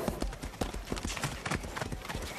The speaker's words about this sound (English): mounts his horse and rides into the forest.